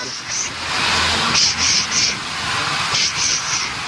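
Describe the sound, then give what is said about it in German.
Steady, loud hissing comes from an old steam locomotive built in 1925 in Winterthur, pulling a historic train, with brighter bursts of hiss in the middle and near the end. “angetrieben auch von einer alten Dampflok, die zischt und zischt. Sie hören es ja hier schon.”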